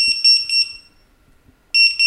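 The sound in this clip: Fire station alarm sounding for a call-out to a blaze in an apartment building: loud, high-pitched electronic beeping in a pulsing burst, then near silence, then the pulsing tone starts again.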